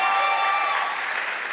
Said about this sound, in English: Clap for yourselves.